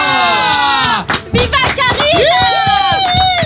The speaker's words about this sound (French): celle que les gens accueillent en criant « Viva Karina » quand elle ouvre son micro. Viva Karina !